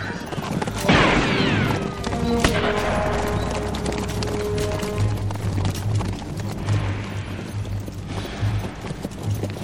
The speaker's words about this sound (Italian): Capitano! Stanno sparando! Sparano dalla gola del Cedar Creek!